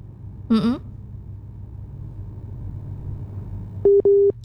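A telephone busy tone after a call has disconnected: two steady, clear beeps at the end over a low background hum.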